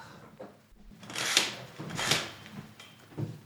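A curtain being pulled further open gives a couple of broad, rustling swishes of fabric sliding along its rail, with softer shuffling between them and no talk.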